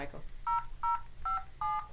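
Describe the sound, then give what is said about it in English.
Four telephone keypad dialing tones, each short and steady, are evenly spaced and fairly faint, with brief gaps of quiet between them. “dial 518 on the phone. See if you hear anything.”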